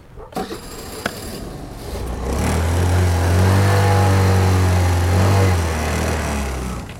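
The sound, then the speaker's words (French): Vintage moped engine starting and then running slightly fast: a few light clicks and knocks, then the small motor catches into a steady, loud, low buzzing drone that holds to the end. “J'ai un petit souci avec mon cyclomoteur. On va essayer de le démarrer déjà. Il démarre”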